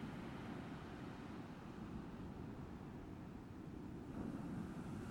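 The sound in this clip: Sea water washing in and out at the seashore: a steady, broad rushing wash that swells slightly louder toward the end, with no voices.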